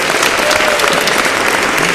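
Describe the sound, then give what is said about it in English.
Loud, dense applause from a live audience at a radio show recording, an unbroken wash of clapping at a steady level for the whole two seconds. “So give these guys another round of applause for Hash Lug Radio.”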